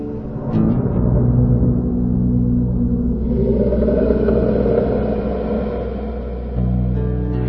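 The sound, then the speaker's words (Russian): Ominous thunder rolls as a deep, continuous rumble lasting several seconds, loud and steady, with a heavier low surge near the end and no voices. “Хирани Кашипу озирался, пытаясь понять, откуда исходит зловещий гром”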